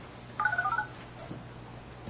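Telephone keypad tones as a number is dialed on a big-button desk phone: a quick run of short beeps within about half a second, faint, over a steady low hum.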